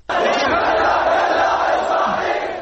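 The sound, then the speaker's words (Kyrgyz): Thousands of protesters in Baghdad's Al-Hurriya Square near the main university, waving Iraqi flags, chant anti-US slogans: a loud, continuous roar of massed voices that starts abruptly and eases slightly at the end. “Аль Хурия аянтына жана Багдаддын башкы университетинин жанында чогулган миңдеген адамдар Ирактын жиликтерин булгалашып, АКШга каршы уран чакырып жатышты.”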